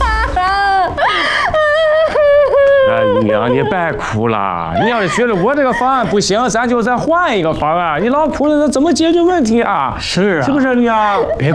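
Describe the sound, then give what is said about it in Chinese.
A mother crying: loud, continuous wailing and sobbing with wavering, quavering pitch, broken into long drawn-out cries. “别哭了啊！你再哭你就把我们给哭毛了呀！”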